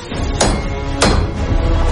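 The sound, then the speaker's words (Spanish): Nails being hammered into a piece of wood, with dozens going in: two sharp, bright strikes about half a second apart over a constant background bed. “Inserta decenas de clavos en una madera. La coloca como soporte en el techo de un túnel.”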